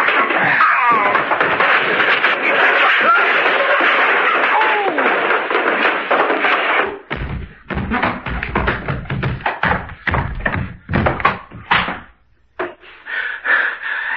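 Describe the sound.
A man tumbles down a flight of stairs in a rapid, uneven run of thumps and knocks, following a loud, sustained stretch of voices.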